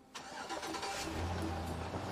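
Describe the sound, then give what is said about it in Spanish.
A pickup truck's engine starts without its key, turning over and catching after a brief pause, then running with a rough, steady rumble. “Al fin pudieron poner en marcha la pickup y los sujetos se fueron.”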